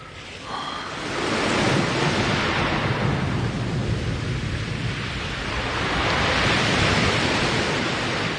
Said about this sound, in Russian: Закрывай скорей. Закрыл. Вроде послабже дует. Ага, послабже.